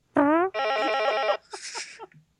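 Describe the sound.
Old telephone ringing: a short tone, then a longer warbling ring, followed by fainter rustling and clicks as it stops.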